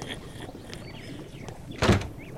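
A single dull door thump lands near the end, short and heavy, standing out over a faint steady background hiss.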